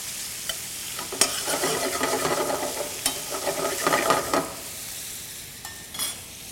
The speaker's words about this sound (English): Taking a look at the bacon, I want to get it kind of a light brown before I add the onions.